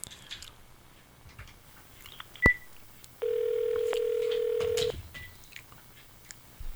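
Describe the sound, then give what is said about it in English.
A telephone being dialed: a sharp click followed by a steady electronic tone held for under two seconds, clear and alone over a faint background. “Dialing again.”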